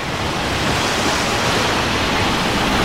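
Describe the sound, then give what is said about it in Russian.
Waves washing over: a continuous, loud rushing roar of surging water that stays dense and even, with no separate breaks or pauses. “Призрака смывает волнами в сторону.”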